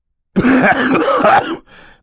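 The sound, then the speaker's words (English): A man coughs into a handkerchief with a single throaty, voiced rasp lasting about a second, then a fainter breathy tail. “coughed once more into his handkerchief and left the room.”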